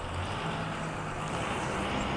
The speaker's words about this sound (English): thank you, loud fucking truck